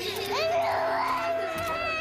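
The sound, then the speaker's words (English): Several people sob and wail together, their overlapping wavering cries running without a break through the whole clip, with some childlike voices mixed in. “Stop your sobbing!”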